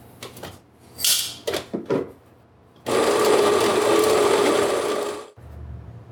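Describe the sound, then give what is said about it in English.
A coffee grinder grinds Papua New Guinea coffee beans for a V60 pour-over. A few short mechanical knocks and rattles come first, then a loud, steady whirring grind runs for about two and a half seconds and stops abruptly. “And then we gotta grind the coffee. All right. We will come back after the coffee's ground.”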